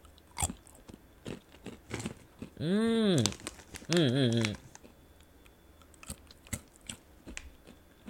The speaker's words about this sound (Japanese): カシューナッツちょっといただきます。